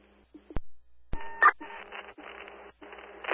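Telephone dialing: two sharp clicks, then a series of steady electronic tones broken by brief pauses, fairly quiet and with no talk.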